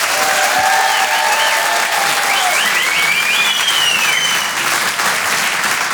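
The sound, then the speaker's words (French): Audience at a comedy club bursts into loud, sustained applause, a dense wash of clapping that holds steady for the whole stretch with a few cheers mixed in. “Faites du bruit s'il vous plaît pour Harold Barbet.”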